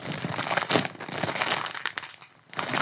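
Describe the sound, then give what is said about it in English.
Crinkling of a potato chip bag being torn open at its tear notch: dense, loud plastic rustling and crackling throughout, with a brief quieter lull shortly before the end. “First of all, this bag is not easy to open. I think you gotta, yeah, here we go. It's got one of those little tear things.”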